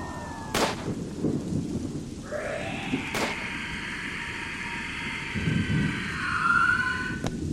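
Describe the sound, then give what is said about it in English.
A gun fires indoors in a house hallway, giving two sharp, sudden reports a few seconds apart over a low rumbling background, with a fainter crack near the end and no voices. “She's been shot.”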